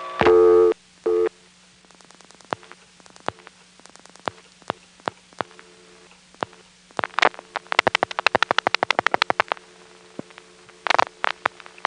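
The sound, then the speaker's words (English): A Bell System Crossbar 5 tandem switch at a North Carolina toll center times out: two short tone bursts, then many sharp relay clicks over a steady low hum, irregular at first and then in quick clusters. “North Carolina, which is a Bell System Crossbar 5 toll center, and I flash before the number can be completely sent out. We then hear the Crossbar 5 tandem timing out about 20 seconds later.”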